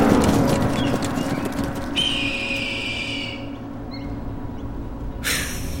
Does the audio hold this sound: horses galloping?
yes